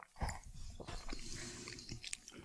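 Chewing and biting on a pasta dish likened to canned ravioli: a few soft, wet bites followed by steady mastication noises, fairly loud and with no talk.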